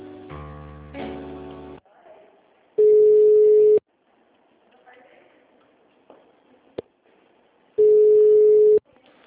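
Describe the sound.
A telephone line rings while a call is transferred: two long, steady, mid-pitched tone bursts separated by a pause, with faint clicks and murmurs between them.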